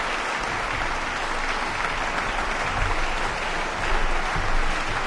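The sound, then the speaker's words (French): Concert audience at Victoria Hall in Geneva applauds after a performance of Haydn's Stabat Mater; steady, moderately quiet clapping that swells slightly toward the end. “Et vous entendez la réaction du public de la salle, enthousiaste, quel plaisir de partager ce moment de musique avec vous.”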